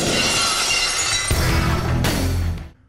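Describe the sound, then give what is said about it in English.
Glass shattering sound effect used as the entrance cue for wrestler Stone Cold Steve Austin on WWE Raw and SmackDown. A few loud, bright crashes of breaking glass follow each other, then the sound fades out at the end. “you wouldn't dare leave out the Stone Cold Steve Austin Glass Shatter. So if you were watching Raw or SmackDown and the glass shattered right now,”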